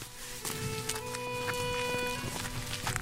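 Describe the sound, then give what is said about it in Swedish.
Footsteps of people on a long walk down a private road toward a large barrier, a steady series of regular steps over a sustained tonal hum. “Men gud, måste man gå hela vägen dit ner, tror du? Ja. Vilken lång promenad det blev.”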